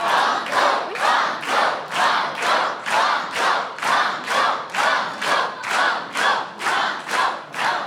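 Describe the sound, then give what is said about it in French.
A studio audience at a French television quiz show chants in unison, a loud, steady crowd chant repeating the same short word in many evenly spaced pulses about twice per second, with no pause throughout. “Entendre toutes ces voix chanter banco”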